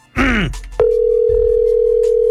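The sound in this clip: Telephone tone for placing a call: a loud, steady, unbroken tone that starts abruptly after a brief falling, voice-like sound and holds to the end.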